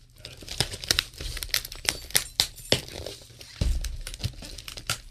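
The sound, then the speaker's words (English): Crinkling and tearing as a heavily taped package is ripped open by hand: many sharp crackles and rips in an irregular run, fairly loud, with no talking. “I could probably rip it from there.”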